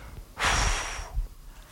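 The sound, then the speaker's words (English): An audience draws a deep breath together, a single loud, airy rush of inhaling lasting under a second, followed by quieter breathy noise. “Everybody on this side, I want you to take a deep breath and go.”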